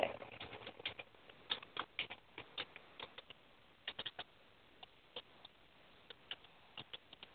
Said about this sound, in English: But give me a minute. I can't type and talk.